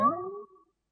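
A single cat meow, a short harmonic cry of about half a second whose pitch eases downward as it fades, fairly faint and heard alone.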